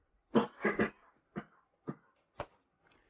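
Coughing from a tickle in the throat: a rapid series of a few short, faint, dry bursts that become more spaced out, with no talking.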